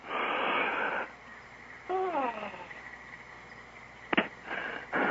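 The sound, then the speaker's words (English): A person takes a deep breath, drawn in as a long, noisy inhale of about a second. Fainter breathy sounds and a brief wheezy squeak follow. “Take a deep breath. Another one. What if I hyperventilate? Take another deep breath.”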